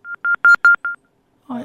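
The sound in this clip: Five telephone keypad tones beep in quick, even succession, each a short steady dual-tone note, followed after a pause by a brief burst of a voice.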